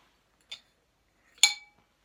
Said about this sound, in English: And as we add them, I'm going to give them a good stir.